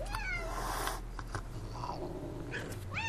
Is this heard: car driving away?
no